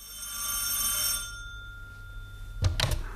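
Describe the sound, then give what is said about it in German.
A telephone bell ringing: one bright, shrill, sustained burst of ringing that fades out, followed after a pause by a short clattering knock. “Da läutete das Telefon.”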